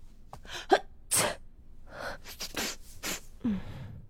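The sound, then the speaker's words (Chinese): A single sharp, hissing sneeze stands out among short, breathy vocal sounds and faint murmurs, loud against an otherwise quiet background. “傅文生打了个喷嚏，他摸摸鼻子，看向自己的队友。”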